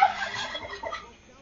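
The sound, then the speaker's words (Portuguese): A turkey gobbles in a short, rapid warbling burst that starts loud and quickly fades away. “Hoje é o Peru que tá te mandando mensagem.”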